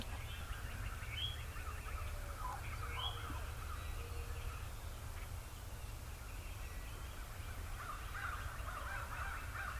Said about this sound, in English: Did you hear that? That was a fly-down cackle coming from Dead Skunk Hollow right out to our front.